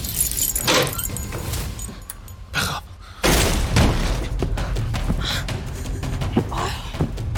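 Keys jangling: bright metallic jingling in short bursts, followed by a louder, steady rumbling noise that fills the second half.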